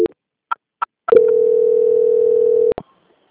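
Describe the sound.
A telephone call transfer tone: a few short beeps and clicks, then a steady, mid-pitched tone held for over a second and a half that ends with a click, with no voices.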